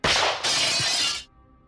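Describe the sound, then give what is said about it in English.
Glass bottles lined up on a low tree branch shatter as bullets hit them: a loud, sharp crash of breaking glass, a second surge of shattering, then bright tinkling debris that cuts off abruptly. “Each time a bullet found its mark and shattered the glass, wild birds cried in alarm from the canopy that blotted out the sky.”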